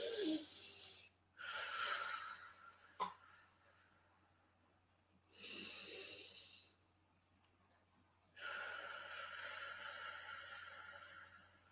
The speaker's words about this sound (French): On va prendre trois grandes respirations en gonflant notre ventre et en soufflant par la bouche pour évacuer un peu les tensions.